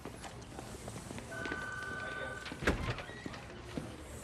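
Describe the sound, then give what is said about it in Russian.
A glass door at a police station opens with a brief mechanical whir, followed by a solid thud as it swings and settles, then a couple of faint knocks afterward. “Он подносит открытый бумажник к окну дежурного, открывает стеклянную дверь, проходит в нее и идет к лестнице.”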